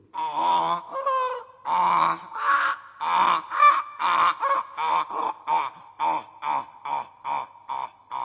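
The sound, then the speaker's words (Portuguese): A donkey brays in a long, harsh run of rasping calls, starting with drawn-out cries that quicken into many short, rhythmic pulses, loud and alone. “Isto é o zurrar de um burrinho.”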